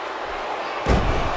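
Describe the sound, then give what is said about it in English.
A wrestler is chokeslammed onto the ring mat at a wrestling match, making a single sudden, heavy thud over steady crowd noise. The crowd swells louder right after the impact. “with a huge choke slam”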